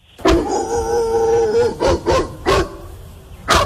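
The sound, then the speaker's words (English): A small puppy whines, holding one drawn-out, wavering cry, then gives four short, sharp yips spaced unevenly after it. The sounds are clear, with no voices over them. “Is that a dog? Yeah. A little puppy dog.”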